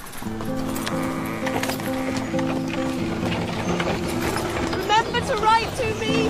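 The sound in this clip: A horse-drawn carriage pulls away with the horse's hooves clip-clopping under a sustained musical score, and a brief wavering cry rises near the end.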